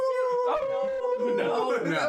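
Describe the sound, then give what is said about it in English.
People imitate wolves with sustained, wavering howls in their voices, long tonal cries that hold a steady pitch and overlap as they continue. “We're gonna howl like wolves.”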